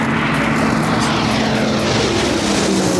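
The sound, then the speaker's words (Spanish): A Pilatus PC-21 propeller training aircraft drones loudly and continuously. Its engine gives a steady buzzing roar with a sustained tonal hum running through it. “Es el Pilatus PC-21, el avión de entrenamiento que va a aprender a pilotar Leonor”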